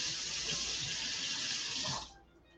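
Tap water running steadily into a kitchen sink as food is washed, a loud, even hiss that cuts off shortly before the end, leaving near quiet.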